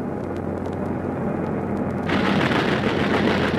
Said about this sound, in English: I say, there's a bloke manning that confounded valley pom-pom. Have to risk it.